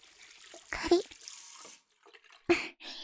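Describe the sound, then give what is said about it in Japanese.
Warm water is poured slowly over the ears during a rinse, heard as two short splashing gushes separated by a quieter trickle. “耳のところはゆっくり流すからね。こっちの耳もゆっくり。”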